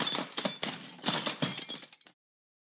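Glass bottles shattering during a bar brawl: several loud crashes and bursts of breaking glass in quick succession, with tinkling shards between them, before the sound cuts off sharply to silence.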